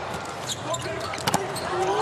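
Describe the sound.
Volleyball serve struck during an Italy versus USA match: a brief, sharp smack, heard under a commentator's speech and steady background noise.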